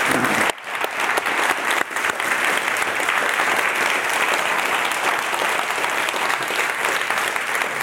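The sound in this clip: An audience at a Commonwealth Club of San Francisco event applauds a guest with loud, sustained clapping. The many hands blend into a steady, even roar that holds to the end.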